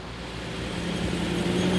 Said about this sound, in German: Punkt 16 Uhr macht sich die qualmende Karawane auf nach Anklam. 12 Kilometer Strecke. Hoffentlich bleibt alles dran. Zweitaktdunst zwischen den Rapsfeldern in Vorpommern.